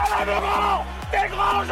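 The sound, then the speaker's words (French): Rugby supporters of the French national team chanting during a Six Nations match at the Stade de France. The loud, shouted-sung chant has held notes and shifting pitch, with short breaks between phrases. “Vous allez le voir, c'est le chant des supporters. Ils ont vibré, crié, soutenu leur club.”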